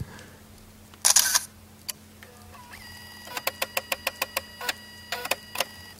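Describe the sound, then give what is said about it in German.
A camera taking a photo, apparently an older model: a loud burst of shutter noise, then a rapid, regular run of many sharp mechanical clicks and a few scattered clicks after, with no talk. “Warte, er macht noch ein Foto.”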